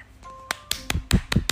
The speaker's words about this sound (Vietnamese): tại vì sao hay điều gì làm con vui mà con vỗ tay vậy